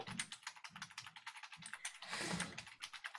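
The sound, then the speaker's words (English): Typing on a computer keyboard, heard as quiet, rapid, irregular key clicks with a denser flurry of keystrokes past the middle. “Sorry, I was typing something.”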